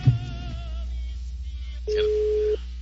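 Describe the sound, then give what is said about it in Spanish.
A telephone line sounds a tone after a voicemail prompt: a faint wavering electronic tone, a short gap, then a single steady mid-pitched beep lasting under a second. “Buzón de voz. La llamada se cobrará al terminar los tonos siguientes.”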